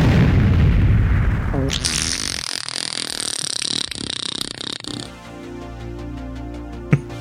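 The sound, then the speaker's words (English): A sonic boom sound effect opens with a loud roaring rumble and whoosh, then gives way to sweeping, tonal electronic sounds that fade toward a final short hit. “Sonic Boom!”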